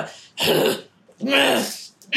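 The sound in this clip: Throat clearing from a person with something stuck in the throat: two loud, harsh rasping bursts separated by a short pause, with a third burst starting right at the end.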